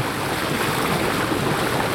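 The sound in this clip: An electric boat glides almost silently across calm, windless water on a warm day. Only a soft, even wash of low noise holds steady throughout, with no voices.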